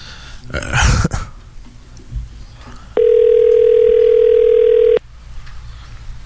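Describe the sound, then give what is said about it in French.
A telephone ringback tone sounds on the line as a call is placed: one steady, mid-pitched tone lasting about two seconds, following a brief burst of noise and quiet rustling. “On va rappeler la comptable”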